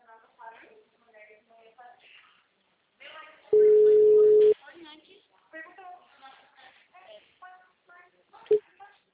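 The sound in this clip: A single telephone ringback tone sounds while a call is being placed: one steady, mid-pitched beep about a second long. People talk before and after it.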